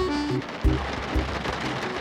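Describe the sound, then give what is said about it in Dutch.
Rain tapping against the windows and roof of a camper as a steady, dense patter. Two low thumps and soft, sustained low tones sit underneath, with no voices. “De regen tikte tegen de ramen en het dak.”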